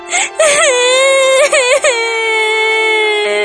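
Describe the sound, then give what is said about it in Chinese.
A girl crying, voiced as high, wavering whimpers and sobs with trembling pitch that settle into a long, steady wail, loud and alone. “阿拉，别哭了，小雨是个很机敏的男孩子，应该没事的。我们再等半个小时吧，要是到时候他还不来，我们就去找他。别哭了。”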